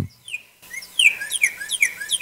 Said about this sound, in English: What kind of bird is that? Do it again. That's a goddamn cardinal.